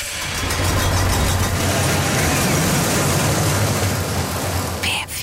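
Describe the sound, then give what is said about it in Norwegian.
A roller coaster ride gives a steady, loud, low rumbling roar that holds almost unbroken, with a brief higher burst near the end. “Berg- og dalbane. Lyden har akkurat vært avspilt en gang.”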